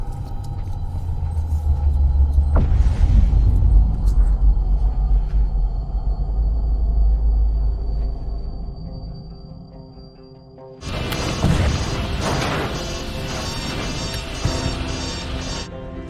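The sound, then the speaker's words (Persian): Spaceship launching: a deep, heavy rumble swells and slowly eases, then erupts into a loud, harsh roaring blast that carries on to the end. “چی بود؟ قربان یه سفینه پرتاب شد.”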